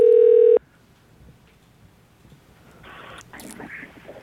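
A telephone tone as a call is placed: a single steady, loud electronic tone lasting about half a second, then near silence with faint rustling and handling noise.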